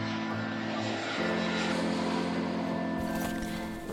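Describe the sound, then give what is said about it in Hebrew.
An airplane lands at Vienna airport with a steady, loud engine drone and a low humming tone underneath; the sound shifts slightly partway through and again near the end. “המטוס נחת, אני יוצאת.”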